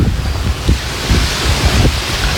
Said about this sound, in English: Check out this home security footage from the North Shore. Properties in Wainiha already flooded. Under the raging brown water is someone's driveway.